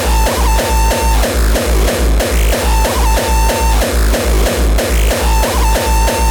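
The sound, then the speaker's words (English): A heavily distorted drum machine pounds out a fast, steady beat of harsh, saturated kicks and crunchy noise hits, with a pitched synth tone recurring in a repeating loop, loud and alone. “Does your drum machine sound like this?”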